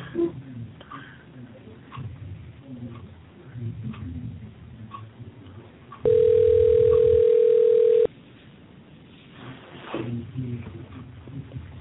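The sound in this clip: A telephone dial tone sounds while a caller is being connected to the show: a steady, unbroken mid-pitched hum lasting about two seconds, with people talking before and after it.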